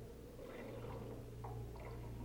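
Water is poured gently into a stalled car whose engine has seized solid, giving a faint, soft trickling and squishing with a few small gurgles, over a steady low hum.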